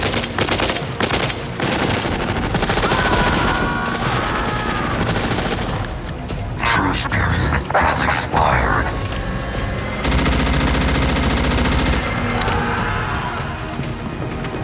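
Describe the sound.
Sustained machine-gun fire in a firefight against armored machines, loud and continuous rattling bursts with occasional crashing impacts mixed in, without a break for the whole stretch.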